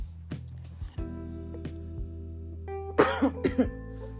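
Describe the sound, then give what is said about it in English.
A short burst of a few loud coughs near the end, rising abruptly over a faint steady hum that fills the earlier seconds. “Excuse me, guys. I'm not going to cut that. I just had to cough.”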